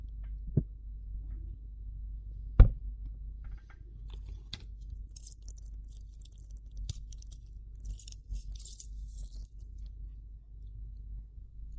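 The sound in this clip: Someone chews a seafood dish, making faint, sporadic soft crunches and wet clicks against a quiet background, with no talk.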